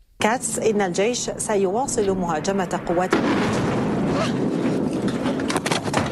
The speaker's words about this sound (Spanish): Una de las bombas interrumpió la emisión de una televisión del país.